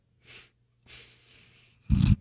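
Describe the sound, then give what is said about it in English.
Congested nasal snorting, like hawking up phlegm: two breathy snorts, the second longer, followed by a louder, rougher, lower-pitched snort. “it sounded like I was trying to hawk up a logie.”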